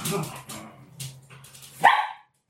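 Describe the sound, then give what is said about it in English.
A dog squabbling with a cat lets out one sharp bark near the end, after a stretch of low murmuring sounds. “Why are they arguing? Because they're a cat and a dog.”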